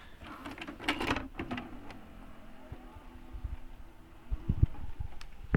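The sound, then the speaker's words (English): A VHS cassette is inserted into a VCR, producing scattered mechanical clicks and plastic clunks. A busier, louder run of rattling mechanism sounds follows near the end. “Okay, well, let's try and put this cassette in and see. Okay, so this is the SOS cassette. Let's hope it works. Let's put it in, see if we can get the theme song.”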